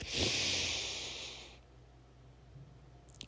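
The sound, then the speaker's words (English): A deep breath taken during a guided meditation: a loud, airy rush of breath lasting about a second and a half, then fading into quiet. No voices are heard. “Another deep breath.”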